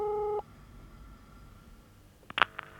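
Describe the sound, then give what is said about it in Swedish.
Telephone receiver lifted and a number dialed: a steady electronic tone that cuts off abruptly, a quiet pause, then a few short sharp beeps and clicks near the end. “lyfter luren och slår numret”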